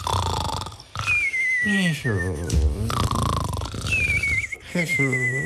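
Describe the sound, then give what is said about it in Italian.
A voice imitates two sleepers snoring deeply: throaty rumbling snores alternate with high, falling whistles, repeating in two loud cycles. “che si addormentano russando profondamente.”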